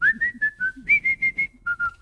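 A person whistles a tune while walking down the street with hands in pockets. The whistle is clear and alone, a quick run of short separate notes that hold mostly level before stepping down near the end.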